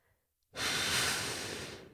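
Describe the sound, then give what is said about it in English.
One long, full exhale pushing out all the air: after a brief quiet start, a strong, airy breath begins abruptly and holds steady before easing slightly toward the end, heard alone. “Exhaling all our air.”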